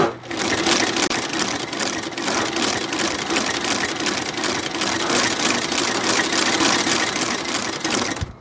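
A shoe repair machine's motor runs for about eight seconds, a loud, steady mechanical whir with a fast, even clatter running through it and no talk.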